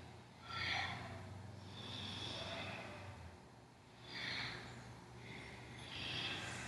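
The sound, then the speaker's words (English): Forceful breathing in a seesaw exercise, inhaling while leaning left and exhaling hard while leaning right. Four soft, rhythmic breath bursts, faint and unhurried, over a low steady hum. “lean towards the left, and exhale as you lean towards the right. And continue like that, seesaw motion. Use a powerful breath.”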